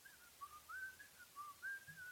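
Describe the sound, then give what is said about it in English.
Soft whistling from a person trying to stay calm: a wavering, meandering tune of a few held and sliding notes, faint and alone with no talk. “he's kind of whistling. He's like trying to keep his mind off of the cemetery that's next to him”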